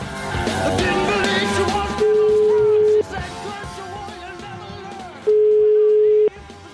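Two long, steady telephone call tones sound, each about a second, while a bar is being called back; busy, noisy background fills the gaps before and between them.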